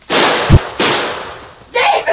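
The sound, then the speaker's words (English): A gunshot in an old-time western drama with an outlaw and a sheriff's posse: a sharp bang with a low thump among a few loud, hissy noise bursts. “That other crook must have just gunned him.”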